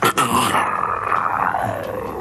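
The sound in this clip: A human voice imitates a tiger's growl: a brief catch, then a sustained low, rough, rasping snarl held for about two seconds.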